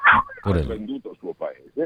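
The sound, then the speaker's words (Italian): A dog barks inside a car, giving a run of short, high yipping barks at irregular intervals. “Pensate che c'è il cane in macchina.”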